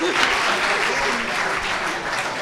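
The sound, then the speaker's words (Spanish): An audience applauds a correct answer in a quiz game with dense, steady clapping. The sound holds at an even level for the whole stretch. “Un buen aplauso, primer punto.”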